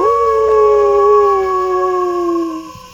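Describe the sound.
A human voice imitates a wolf howl: one long, loud, sustained howl that sinks slightly in pitch before breaking off abruptly near the end.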